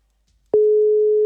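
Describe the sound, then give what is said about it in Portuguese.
Telephone ringing tone on a call attempt: after a short silence, a single steady mid-pitched electronic tone starts abruptly and holds at an even, fairly loud level to the end. “Primeiro toque, Gabriele.”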